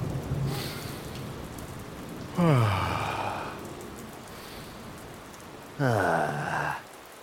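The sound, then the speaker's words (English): Rain falls in a steady, even hiss, and two long, groaning, sighing tones slide downward in pitch over it, one at about two and a half seconds and another near six seconds. “Mr. Grown-Up ran outside into the rain. Wait, I have an umbrella.”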